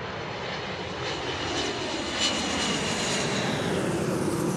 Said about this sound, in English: residents wake up to the sounds of planes taking off from Hartsfield-Jackson International Airport. It's just down the road.